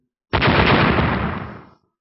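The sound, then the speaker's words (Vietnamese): An explosion sound effect as flaming sword slashes burst in a fantasy tale. After a brief silence comes a single loud, sudden roaring blast that rumbles and fades over about a second and a half, then cuts to silence. “Một hồi nổ mạnh”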